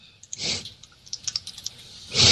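Computer keyboard typing as the word Forbes is entered: a quick, uneven run of light key clicks set between two louder, broader bursts of noise, with no talk.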